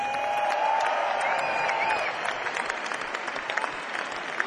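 Audience applause at a Fleetwood Mac concert: dense, continuous clapping from a large crowd, loud and steady, easing slightly after about two seconds but carrying on to the end.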